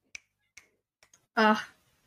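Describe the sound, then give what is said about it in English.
Finger snapping: four sharp, dry snaps at uneven intervals, the last two close together, followed by a brief voiced sound. “Like, finger snaps. Exactly, finger snaps.”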